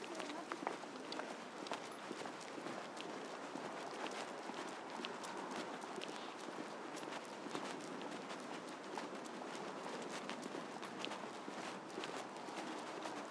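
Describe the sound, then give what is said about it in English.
A horse trots at a normal pace on a road, its hooves making a faint, steady clip-clop that continues throughout. “He must have done something because he's trotting at normal pace now”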